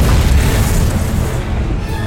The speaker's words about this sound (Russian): Вдали виден вулкан. Происходит взрыв, сопровождающийся выбросами огромного количества огня и магмы.